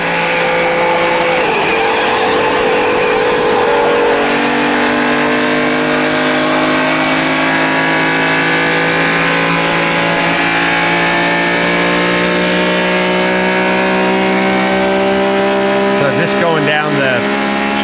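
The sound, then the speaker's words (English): A car engine drives up an on-ramp and along the Champs-Élysées toward the Arc de Triomphe, giving a loud, continuous throaty drone whose layered harmonic tones shift steadily throughout. “So they're just going up an on-ramp, and they're going down the Champs-Élysées to the Arc de Triomphe. But listen to the sound.”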